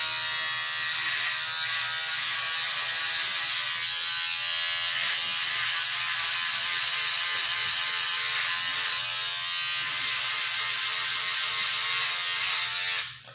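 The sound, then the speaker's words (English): An electric razor buzzes steadily as a beard is shaved, a loud, even, high-pitched drone that holds for most of the time, then cuts off abruptly at the end. No one speaks. “If it sounds like I'm shaving, it's because I am.”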